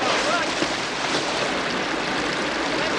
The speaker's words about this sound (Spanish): El agua rebasa el dique y el lago comienza a desbordarse.